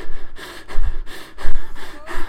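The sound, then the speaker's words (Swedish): Heavy panting from one person, several rough, forceful breaths in an uneven rhythm, loud and close with no talking. “Och jag typ andades astungt i en minut.”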